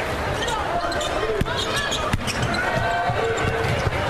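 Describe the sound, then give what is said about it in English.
Basketball dribbled on a court during a women's college game between USC and the Badgers: a few sharp, hollow bounces under steady crowd noise and a talking voice. “Cron drives into the front court with the dribble.”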